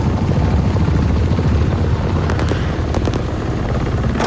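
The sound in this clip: Military helicopters landing near a Taliban outpost, their rotors making a loud, steady, throbbing roar that fills the whole stretch without a break.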